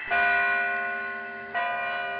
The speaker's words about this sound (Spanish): Y sonó una campanada. Dos.